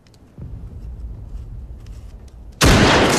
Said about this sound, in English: The bullet breaks the wire.